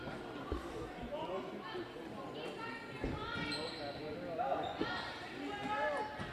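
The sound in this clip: Basketball dribbling on a court during a game, dull bounces scattered under steady crowd noise and a voice talking over it.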